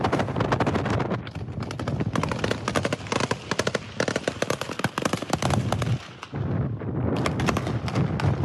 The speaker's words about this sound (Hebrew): בכביש ראשי בנגב, כשמכל רכב נורות יריות בצרורות מרובים. לאור יום, ואם זה לא מספיק כדי להראות את חוסר הפחד, אחד מהעבריינים אפילו צילם את המרדף ואת הירי והעלה את זה בעצמו לרשת.